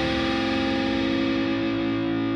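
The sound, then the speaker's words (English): A heavily distorted electric guitar holds a string bend, one loud, thick sustained note ringing on its own for the whole span without a break. “See, do that bend again, even with thick-ass distortion.”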